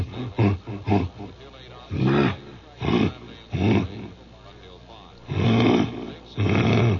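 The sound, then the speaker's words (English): A voice imitates a wild lion grunting in East Africa: a series of deep, rough, chesty bursts, a few quick ones at first, then longer, heavier grunts separated by pauses. “I was in East Africa, and the first lion I came across was just grunting. He goes,”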